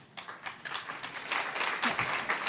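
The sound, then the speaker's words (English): Audience applause fills the whole stretch as a dense, steady patter of many hands clapping. It swells slightly louder in the second half and carries no voices. “I'm really enjoying the fact that what you are applauding is, like, brilliant point. It feels like we're at a political event, which is a real thrill for me because I'm like, yes, I agree. Thank you for the applause.”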